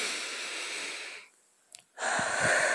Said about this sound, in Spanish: Así que a respirar, a respirar profundo, todo, todo, todo lo que podáis, venga conmigo.